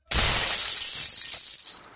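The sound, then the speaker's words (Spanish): Glass shatters in one loud, sudden crash as police smash the windows of an Estrella de Oro bus in front of the Palace of Justice in Iguala, the bright noisy burst fading gradually over two seconds. “Le ponchan las llantas, le quiebran las ventanas y arrojan en su interior granadas de gas lacrimógeno”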